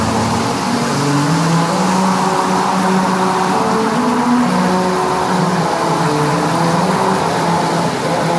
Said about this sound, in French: Il aurait dû faire ça avec une auto électrique. Ouais. On n'aurait pas entendu le moteur.